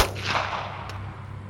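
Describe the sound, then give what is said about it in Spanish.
A masked man's gun fires one sharp shot right at the start, its blast decaying into a dull rumbling tail. “Solo me dijo una sola oración antes de apuntarme con el arma y apretar el gatillo.”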